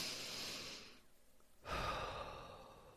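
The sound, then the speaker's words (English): A soft, deep breath in, then a brief pause and a long, audible breath out, as in a relaxation exercise; no speech. “Take a deep breath.”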